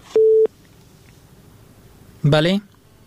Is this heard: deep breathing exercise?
no